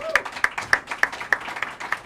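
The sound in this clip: Audience applause greets a guest with moderately loud, steady clapping, its sharp peaks landing in a fairly regular rhythm throughout.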